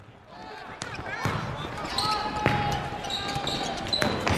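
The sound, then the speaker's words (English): A basketball bounces during play, giving several sharp, hollow thumps spaced through a busy court background with high squeaky tones. “They're playing basketball.”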